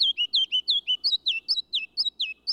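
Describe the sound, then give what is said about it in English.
Ruby-crowned kinglet spring song: a rapid, high-pitched series of many bright, evenly spaced chirping notes, clear and loud, with no other sounds over them. “The ruby-crowned kinglet tunes up his spring song only in the lowlands.”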